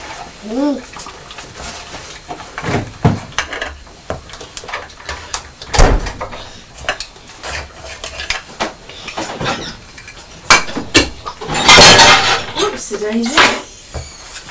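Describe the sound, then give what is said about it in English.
A dishwasher door is shut hard, nearly slammed: one heavy bang stands out amid lighter clinks, rattles and knocks of dishes and kitchen handling. “I was trying to shut the dishwasher and my hand slipped and I nearly slammed the door.”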